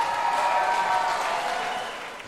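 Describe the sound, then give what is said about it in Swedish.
Applause edited into a recording, a short burst of dense, even clapping that gradually fades toward the end. “Men vi klipper in applåder”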